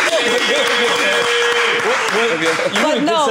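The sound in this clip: Applause from a live audience at a discussion of hip-hop fashion brands, loud and steady for the whole stretch, with voices calling out over the clapping.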